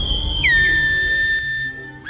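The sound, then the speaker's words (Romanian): Whistled language of La Gomera island locals: a long, piercing whistle that drops in pitch and then holds steady for over a second, followed by a short rising whistle over a low background hum. “un limbaj fluierat folosit de localnicii insulei La Gomera”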